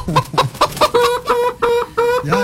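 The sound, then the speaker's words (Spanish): Hens cluck in a busy farmyard chorus, many short, rhythmic, nasal calls repeating in quick succession with a clear, bright tone. “Ahí están las gallinas que se pronuncian, ¿no?”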